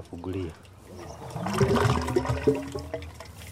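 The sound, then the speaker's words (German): A liquid mixture drains out of an unplugged outlet into a biogas plant, a gushing, gurgling flow that swells in the second half under people talking. “Dann ziehe ich den Stopfen und lasse die Mischung in die Anlage laufen.”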